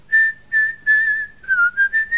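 A person whistles a tune as a signal: clear, bright, pure notes in a string of short phrases separated by quick breaks, with no other sound underneath.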